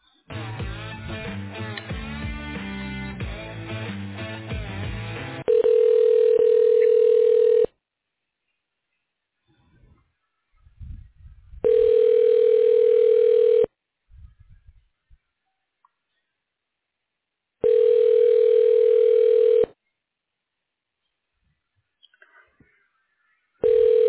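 Telephone tones play as a call is transferred to an extension. Hold music comes first, then three long, steady beeps at even intervals with quiet gaps between them, and a fourth begins right at the end.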